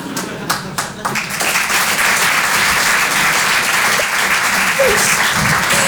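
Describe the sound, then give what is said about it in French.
A studio audience applauds loudly: after a brief, uneven start, a dense wash of clapping swells and holds steady to the end. “Tu peux t'applaudir très fort. Bravo, public.”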